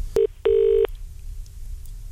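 Telephone call being placed: two steady electronic tones, a short beep followed by a longer one, sound clearly and then give way to near silence with a faint hum.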